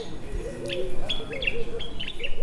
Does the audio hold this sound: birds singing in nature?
yes